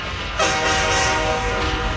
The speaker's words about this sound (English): The sound of a tornado is described to be like a freight train. Because I know that in Atlanta, when they have a tornado, it sounds like this.